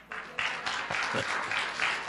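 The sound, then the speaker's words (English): Audience applause in a church, a faint, steady patter of many hands clapping without pause. “Amen? You can clap now.”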